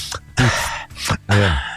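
A person demonstrating deep, heavy breathing: a few loud, breathy inhales and voiced sighs in quick succession, the last one long and drawn out.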